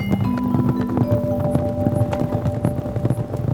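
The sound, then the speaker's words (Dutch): A herd of wildebeest stampedes into a gorge: a continuous, loud drumming of many hooves that stays steady throughout, with no pauses or voices. “jagen ze een kudde wilde beesten de kloof in recht op Simba af”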